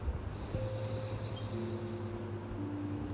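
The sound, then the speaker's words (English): A slow, deep inhale through the nose during a guided relaxation meditation, soft and airy, drawn out under a steady bed of sustained background tones. “I want you to breathe in deeply through your nose”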